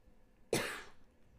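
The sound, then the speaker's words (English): A single sharp cough, fairly faint, bursts out abruptly and fades over a short breathy tail. No speech surrounds it. “sorry, I just coughed.”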